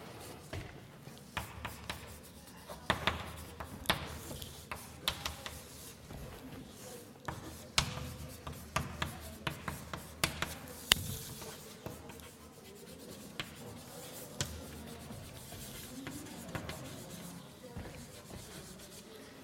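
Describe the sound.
A pen writes out a mathematics formula by hand, making many short, scratchy strokes and taps in quick, irregular bursts at a steady low level.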